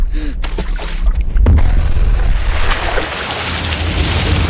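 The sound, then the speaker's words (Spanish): A grenade exploding in a swimming pool: a heavy low boom bursts out, then a loud, sustained roaring rush of churning water continues to the end. “¡Suelta una granada en la piscina!”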